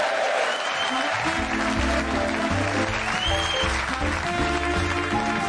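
Audience applause welcomes a library assistant onto the stage at a Christmas show: dense, steady clapping fills the whole clip at full strength, with music playing underneath.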